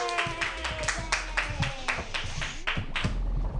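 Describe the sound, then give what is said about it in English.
Audience applause for a comedian being introduced on stage at a stand-up comedy show: a dense, steady burst of many hand claps that continues without a break. “Put your hands together for Ian Langlands.”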